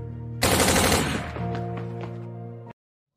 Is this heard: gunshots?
yes

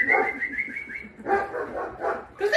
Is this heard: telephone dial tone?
no

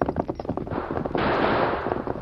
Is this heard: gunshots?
yes

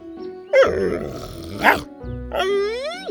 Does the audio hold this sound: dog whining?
yes

